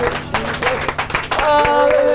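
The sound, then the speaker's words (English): A church audience claps and praises, sharp repeated handclaps under voices, growing into fuller, sustained clapping and sound in the second half. “Clap and praise tonight. Thank you, Lord.”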